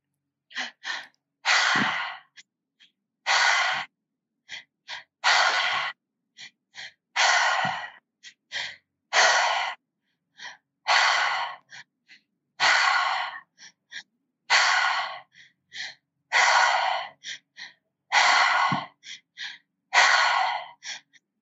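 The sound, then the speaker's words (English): Deep breathing exercise: air is drawn slowly into the belly and chest, then exhaled through the mouth. Many steady, rhythmic breath cycles repeat at an even pace, with no talking over them. “So when you're ready, just keep in, in, out. Yeah. In, so in, out. It's in, out. So belly, chest, exhale through the mouth.”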